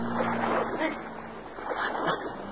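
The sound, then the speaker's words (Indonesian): A motorboat carrying someone away gives a steady, rushing drone of engine and churning water that holds fairly even throughout. “Lihat, Ma. Mario dibawa orang naik motor bot.”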